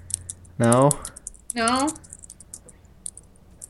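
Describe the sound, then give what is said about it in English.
Computer keyboard typing makes a steady patter of light clicks, with two short voice sounds rising over it. “Stop your Googling. I can hear you type.”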